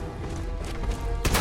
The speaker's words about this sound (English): Let me try a shotgun. Because he is pretty close every time I hit him. And I can only get only like one or two shots off at a time. So yeah, let's try a shotty.